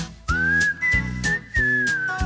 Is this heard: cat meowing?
no